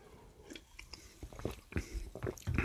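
Crunchy biting and chewing of a melon bubblegum-flavoured sweet: several crisp crunches and wet mouth sounds. They are faint and irregular, with no talk over them.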